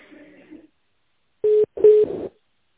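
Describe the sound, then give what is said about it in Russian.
Short electronic tones sound on a phone line as a call is transferred to a specialist: two steady beeps close together, the second longer and mixed with line noise. “Минуту, я вас соединю со специалистом. Стойте на линии.”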